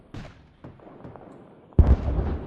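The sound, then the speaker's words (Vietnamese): Booming explosions from charges set along a cave: a few muffled bursts, then one loud, heavy blast that rolls into a sustained low rumble. “họ cảm thấy mặt đất rung chuyển, hàng loạt tiếng nổ phát ra”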